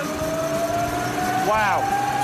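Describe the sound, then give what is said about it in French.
A steady whine rises from a huge flywheel disc spinning on a brake dynamometer as a caliper brakes it, with a brief sweeping squeal near the end. “On a un énorme volant d'inertie avec un disque et un étrier. Exact. On peut le voir tourner ? Regarde la vitesse.”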